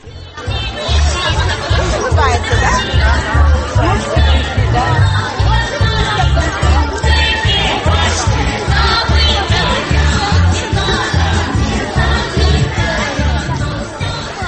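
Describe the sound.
A festive crowd murmurs and chatters at the Maslenitsa celebration in Fuchik Park, Bishkek. Many overlapping voices form a steady babble over a regular, thumping low beat of concert music.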